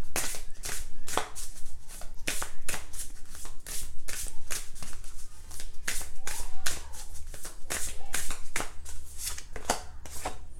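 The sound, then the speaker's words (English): A new oracle card deck is shuffled in many rapid riffling and tapping bursts, steady and continuous for the whole stretch. “I will pull one card for this energy, for the moon, using my new deck.”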